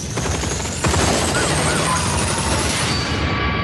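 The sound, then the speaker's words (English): Gunfire erupts in a police shootout, a dense, loud barrage of shots that intensifies sharply after the first second and continues without pause, with a constant rough roar underneath. “Shots fired. Officer needs help.”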